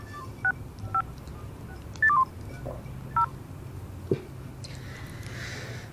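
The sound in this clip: Keypad tones as a telephone number is dialed to call a doctor's clinic: a few short electronic beeps at uneven intervals, some in a quick pair, followed by a soft click over faint background hiss.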